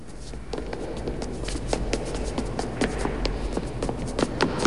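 Hurried footsteps descend a broad flight of steps past a kiosk, many quick, uneven taps over a low, steady rumble, growing slightly louder toward the end.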